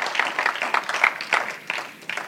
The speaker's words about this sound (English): Somebody clap your hands for Jesus.